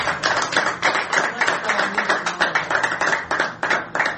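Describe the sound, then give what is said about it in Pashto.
Audience applause for a singer at a Pashto music program: many hands clapping in a dense, steady wash with a loosely pulsing rhythm, fairly loud, with no voices over it. “چکچک وکړئ”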